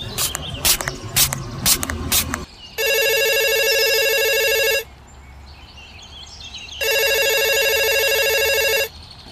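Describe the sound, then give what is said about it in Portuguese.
A telephone rings in two long, loud electronic trills separated by a pause of about two seconds. A few sharp clattering knocks come before the first ring. “Traga-me o Fone, por favor. Quem será, hein?”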